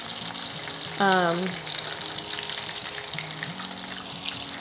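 Cheese-and-pepper filled food frying in a pan, a steady, bright sizzle and crackle that hisses continuously at a moderate level.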